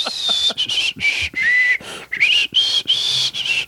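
A person whistling a wavering tune: a series of high, breathy notes that slide up and down in pitch, broken by brief gaps, loud and without talk.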